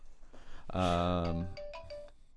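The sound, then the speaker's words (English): A mobile phone ringtone going off in an audience, a bright electronic melody with one long sustained tone followed by a few shorter, higher notes. “Oh, someone didn't turn their phone off.”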